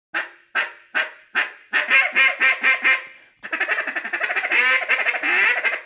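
Honking from a regular J-frame goose call being blown: four spaced, loud nasal honks, then a quicker run of about five notes, ending in a fast, continuous stream of clucking notes with no talk.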